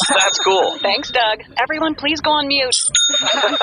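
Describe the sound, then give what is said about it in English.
A sale notification chime from an online store sounds in short, bright dings while people talk over it on a meeting call. “What's that sound? It's me. That's the sound of a sale on our new store.”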